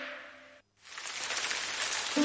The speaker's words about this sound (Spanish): Atención, que cae la lluvia sobre la superficie de la pista